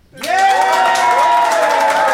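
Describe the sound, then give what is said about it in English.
Studio audience applause and cheering at a live show vote, bursting in abruptly after a brief silence, loud clapping topped by rising whoops from many voices. “So if you think Alfie and Ben, and therefore Jenna, is in the right, I would like you to applaud now.”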